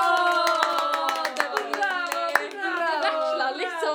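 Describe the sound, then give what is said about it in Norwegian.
Scattered handclaps from an audience at a radio theatre performance. The claps are sharp and uneven, sounding beneath a prominent speaking voice. “det der kommer applausen!”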